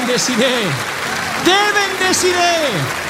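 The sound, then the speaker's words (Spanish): Congregation applause at an evangelical church service: a steady wash of clapping runs beneath a loud, excited voice whose pitch swings up and down as it calls out over the crowd. “Denle el mayor aplauso de la historia al Señor de señores, al Rey de Reyes”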